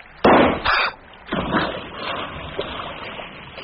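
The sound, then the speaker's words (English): A gunshot cracks out as a sharp, loud bang right at the start. It is followed by a couple of further noisy bursts that settle into a low, fading rumble. “I heard the shot.”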